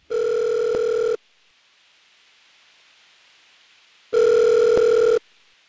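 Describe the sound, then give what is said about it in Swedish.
Telephone ringing tone for a call coming in on the line: two long, steady electronic beeps, each about a second, separated by several seconds of faint hiss. No talk. “Vi har ett samtal på linjen.”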